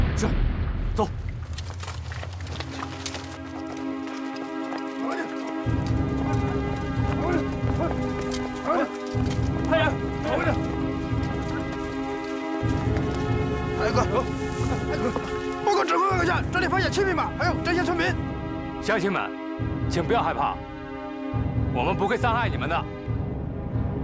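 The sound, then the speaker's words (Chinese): Horse hooves clip-clop from seven horses in a village, a low rhythmic patter in repeated stretches beneath a sustained tonal backdrop. “报告指挥阁下，这里发现七匹马，还有这些村民。”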